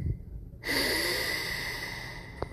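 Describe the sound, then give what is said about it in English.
A slow, airy breath, part of a guided exercise of breathing in through the nose and out through the mouth. A quiet moment gives way to a steady, noisy exhale lasting about two seconds. “In through your nose. Out through your mouth. Again, breathe.”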